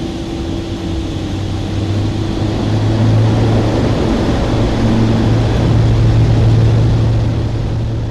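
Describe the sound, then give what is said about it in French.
An aircraft engine drones just before takeoff, a loud, steady roar with a low hum that builds slightly in level and then holds, with no voices. “Décollage imminent.”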